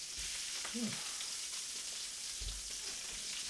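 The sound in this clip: Kielbasa sizzling as a large piece is pushed across a greasy griddle at a party: a continuous, bright hiss of frying grease with a brief low scrape or thump.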